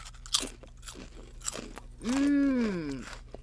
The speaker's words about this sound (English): These are good. The fried green tomatoes taste like they're dipped in ranch.